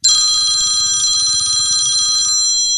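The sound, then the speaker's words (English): A phone alarm ringtone: a loud, high, bell-like trill repeating rapidly and steadily for a little over two seconds, then cutting off with a brief ring-out. “I think I definitely change them up because... I don't like having the same sound on the same alarms.”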